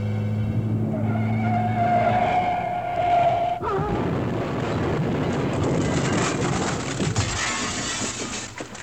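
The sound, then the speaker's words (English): A car on an old road swerves and crashes into a bank: a steady engine drone breaks off in one abrupt, loud impact, followed by several seconds of dense, continuous scraping and rumbling noise. “A car coming down an old road suddenly swerves and crashes into a bank.”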